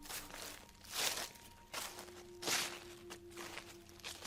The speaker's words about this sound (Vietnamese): Đang say sưa sảng khoái thì bất ngờ đằng sau có tiếng bước chân xào xạc vang lên.